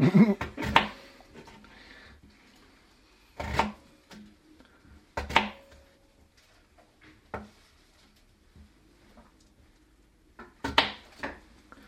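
Food being chopped up for cooking gives a string of sharp, irregular knocks on a hard surface, some in quick pairs, separated by quiet gaps.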